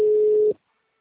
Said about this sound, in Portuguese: Chama e não atende.